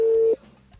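A telephone tone on a call that is ringing again gives one steady, mid-pitched beep lasting about a third of a second, then cuts off into faint background noise.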